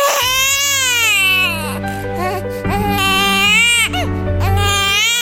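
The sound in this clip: Newborn baby crying right after delivery, in a few long, loud, high-pitched wails with wavering pitch and brief breaths between them.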